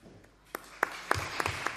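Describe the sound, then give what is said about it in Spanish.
Scattered hand claps from an audience, quiet and sparse: separate sharp claps at first, then thickening into light applause toward the end. “que se va a levantar ahora mismo para que le demos también un aplauso.”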